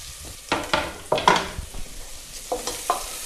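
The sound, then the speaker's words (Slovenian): A spoon stirs onions sautéing in a pan, with a steady sizzle under several scraping, clinking strokes. No one talks. “Dobro premešam. Ja, seveda, in če nekaj pražimo v maslu, potem ima čist svoj tipičen sladkast von.”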